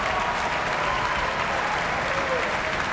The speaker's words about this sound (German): Das vollbesetzte Prinzregententheater in München ist hörbar angetan. Und hier applaudiert ebenfalls das Orchester.